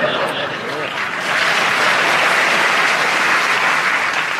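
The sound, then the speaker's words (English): An audience applauds, a dense and steady wash of many hands clapping that swells a little partway through and holds loud to the end. “People are clapping.”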